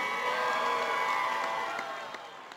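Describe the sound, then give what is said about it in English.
A crowd cheers and applauds to officially welcome the PWHL San Jose women's hockey team to the Bay Area. The cheering and clapping stay fairly steady, then gradually fade toward the end, staying faint overall. “I'm supposed to ask you to make some noise and put your hands together, but you're already doing that”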